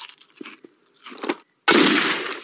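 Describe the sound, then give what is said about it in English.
A gunshot fired to open a beer can: a few faint clicks and rustles, then a sudden loud, harsh burst that stays strong until the end. “Anyone else want a beer? You use your gun as a can opener? I use it for everything.”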